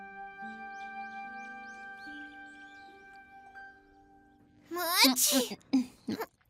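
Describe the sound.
A single sharp sneeze bursts out after soft, sustained music-like tones, and a brief voice follows.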